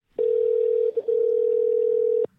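A telephone ringing tone sounds while someone places a call: one loud, steady, unbroken beep lasting about two seconds, with a brief dip near the middle, then silence.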